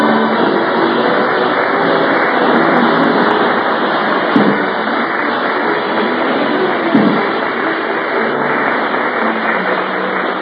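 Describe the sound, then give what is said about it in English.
Steady rumbling drone of a car being driven to a studio, a driving sound effect in an old radio comedy. The noise runs unbroken throughout, with two soft bumps partway through. “Ladies and gentlemen, let's turn our watches back to an hour before the Jack Benny broadcast. At the moment, Rochester is driving Jack to the studio. Take it easy, Rochester.”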